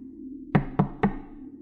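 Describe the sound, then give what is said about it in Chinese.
Three firm knocks on a door, evenly spaced and crisp, each a short hard thud over a faint low hum, with quiet after the last. “023突然听到敲门声”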